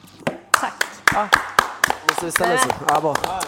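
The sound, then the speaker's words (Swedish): Scattered, sharp hand claps from an audience giving a standing ovation ring out a dozen or more times at irregular intervals, mixed with people talking. “En stående ovation.”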